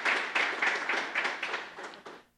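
Applause during a tribute at a city council session: dense, steady clapping from many hands with a slightly pulsing rhythm, fairly loud, tapering off and ending in near silence.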